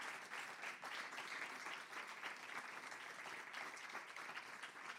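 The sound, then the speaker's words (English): Audience applause at the close of a live World Canvass event program: dense, steady clapping that holds at an even, full level for the whole five seconds without a break. “Please, a big hand.”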